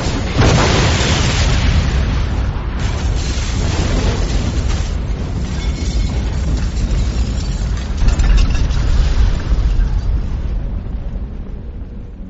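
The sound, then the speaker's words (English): An explosion set off by a detonator switch beyond a closing blast door bursts in abruptly, then rolls on as a loud, sustained roaring rumble for many seconds before easing slightly at the end. “JB still waited until the very last tick before flipping the detonator switch in his grip”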